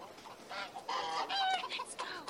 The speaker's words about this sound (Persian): باید سمت صدای مرغا بریم، ببین سمت راست و بریم